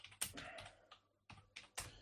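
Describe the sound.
Typing on a computer keyboard: faint bursts of quick plastic key clicks, with a pause in the middle before a few more short flurries.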